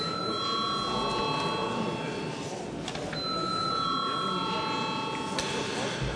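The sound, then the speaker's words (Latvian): An electric bell rings in a parliament chamber to call members to a vote. It sounds as two long, steady, high ringing tones with a short gap between them, over a constant low murmur in the chamber. “Lūdzu zvanu.”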